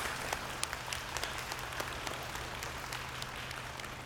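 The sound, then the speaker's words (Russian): Faint applause greets a girl who has won a gold medal at a ceremony in a children's home. Scattered, sharp individual claps rise briefly above a thin, steady wash of clapping, over a low, constant hum. “Давайте похлопаем Ане.”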